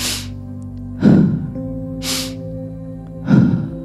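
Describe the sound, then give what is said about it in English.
Forceful breathwork breaths, sharp inhales through the nose alternating with heavy exhales out the mouth during a session on self-judgment. Four loud, distinct bursts over a steady tonal drone, the airy nasal breaths alternating with deeper, lower mouth exhales. “And now moving into that halo active breath, that forceful inhale through the nose, forceful exhale out the mouth.”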